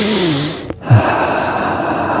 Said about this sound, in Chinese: 咁而家你同我一起深呼吸下，